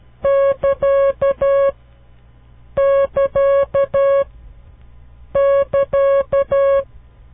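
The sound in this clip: Morse code sign marking the beginning of a transmission is sent three times as a steady, buzzy single-pitch tone. Each group mixes short and long beeps, with clear pauses between the repetitions.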